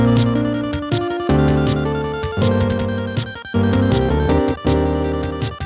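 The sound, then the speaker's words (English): Chiptune music made of two-note chords whose top notes are shifted a sixteenth note later, giving bright, buzzy synthetic tones that step through a steady sequence of changing notes, loud and continuous. “each one of these is a chord of two notes. If I select the top note of each and move them over a 16th note, it now will sound like this.”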